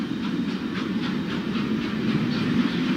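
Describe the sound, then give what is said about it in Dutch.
A train travelling from Budapest to Transylvania gives a steady low rumbling drone with a faint, regular clickety-clack of wheels on the rails and a light hiss on top, with no voices. “Net als Roland in die tijd neem ik de trein van Boedapest naar Transylvanië”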